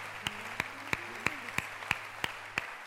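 A church audience claps in a steady, even rhythm: about nine sharp, fairly faint claps at a quick regular beat.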